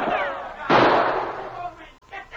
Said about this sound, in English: Sergeant Preston's quick shot smashed the carbine Travis leveled at the charging dog.